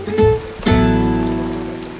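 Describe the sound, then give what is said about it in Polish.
Rain falls on the roof of an open-air shelter as a steady, dense patter, with a couple of sharper knocks near the start. “Tak, pada nadal.”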